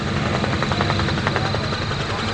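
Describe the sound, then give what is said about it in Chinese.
A helicopter lands at a temporary hilltop airfield during a military exercise. Its rotor and engine make a loud, steady droning chop that holds without pause from start to end. “直升机直接降落在导演部的山顶临时机场。”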